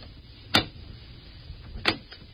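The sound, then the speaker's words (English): Knocking on a door: a couple of sharp, separated raps, with a fainter tap after the second, over a quiet background. “And then, there was a knock on the door.”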